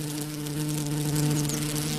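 Bees buzz around the bright male flowers of a holm oak in a steady, moderately loud drone with a low, even pitch that barely changes throughout.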